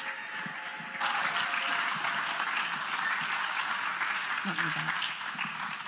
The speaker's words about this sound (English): So please, on this Mother's Day morning, would you please give a round and warm welcome to Alicia Cruz, my wife, who's sharing on this Mother's Day.